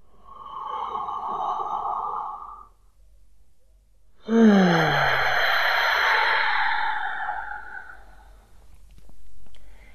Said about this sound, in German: Noch einen Atemzug mehr.